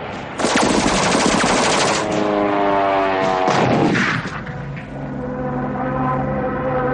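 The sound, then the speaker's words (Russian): Loud machine-gun fire from a wartime trench during an aircraft attack, two rapid bursts of dense, crackling shots, with a steady droning tone continuing beneath and after them. “Пулеметная очередь проходит в полуметре от плеча”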